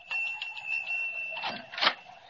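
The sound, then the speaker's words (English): A bell rung at a door gives a rapid series of bright, high metallic strikes over a sustained ringing tone, finishing with two louder clangs. “There's a bell, Jimmy. Ring it.”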